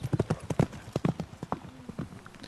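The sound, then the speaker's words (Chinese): Rapid, uneven hoofbeats of a horse galloping as a warrior flees on horseback in an ancient battle, many sharp clip-clop strikes in quick clusters, moderately loud and without talk. “刘备连忙躲避，吕布趁机从阵脚间逃脱，倒拖着方天画戟骑马飞奔回了虎牢关。”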